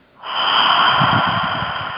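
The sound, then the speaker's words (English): A single long, steady breath pushed out through the mouth during a guided breathing exercise: a soft, breathy rush that starts abruptly and holds at an even level to the end, with no voices. “exhale through your mouth. And repeat this cycle 10 times. Inhale for 5. And out.”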